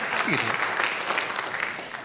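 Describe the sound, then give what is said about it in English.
Applause from a church audience: a steady, dense patter of many hands clapping for about two seconds, fairly soft, with a voice briefly heard over it. “I'll take applause for that.”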